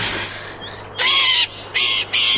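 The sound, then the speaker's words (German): Harsh, crow-like cries come from an artificial bird hanging on wires: a fainter call, then three loud rasping caws in quick succession, each short and abrasive. “Der Vogel ist ja gar nicht echt. Was? Ja, ein künstlicher Vogel, der an Drähten hängt.”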